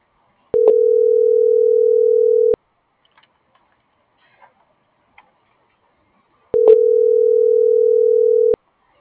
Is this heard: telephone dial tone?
yes